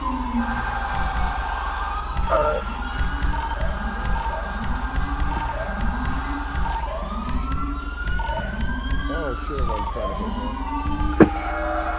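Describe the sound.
An ambulance siren in a police video game wails loudly and steadily in repeated rising and falling cycles. It plays over a constant low rumble, with other tones layered on top.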